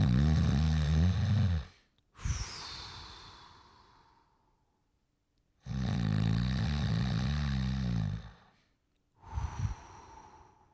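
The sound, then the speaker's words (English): A person imitating snoring and stopped breathing from sleep apnea: long, rasping snores alternate with airy, fading exhalations, with one clear stretch of silence between them. No words are spoken. “Because she said that in the middle of the night, I would stop breathing. Like, I'd be like,”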